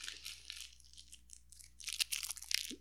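A label is peeled off a bottle with quiet, papery crackling and tearing in irregular bursts, growing busier and more crinkly toward the end.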